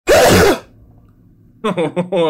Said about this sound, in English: Was that my hype? No, that was a sneeze.